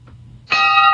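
A single bell sound effect strikes about halfway through a near-silent second. Its bright ringing tone holds steady and loud to the end.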